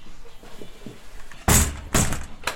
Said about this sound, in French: J'ai ouvert la porte.